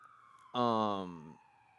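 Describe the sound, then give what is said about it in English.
An emergency siren sounds outside: a steady high wail runs throughout, with a louder, lower, buzzy burst lasting under a second in the middle. “a siren”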